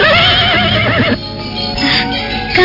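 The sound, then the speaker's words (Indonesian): A horse neighs as it is led out of a stable, giving one loud, wavering whinny that fills the first second before giving way to softer, lower sound. “Panji Ketawang menuntun kuda keluar dari pagedogan”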